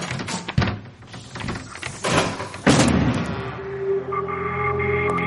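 A door being forced open: a few heavy, dull thuds against it, the loudest blow coming partway through, followed by a steady tonal hum.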